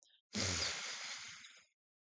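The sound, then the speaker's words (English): One long, deep inhale from a guided breathing exercise, taken while seated on a bed. It is a steady, breathy rush that holds for over a second and then fades, with no talk around it. “I want you to take a couple deep breaths. Let's do three. Three big breaths together. Here we go. Inhale.”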